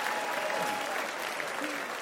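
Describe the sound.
Audience applause at a live stand-up comedy show, a steady dense wash of many hands clapping from start to finish, fairly faint and even, with no single voice standing out.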